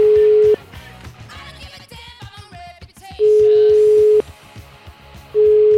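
A telephone is dialed. A steady tone cuts off into a rapid run of short dialing tones, then long, steady line tones sound twice.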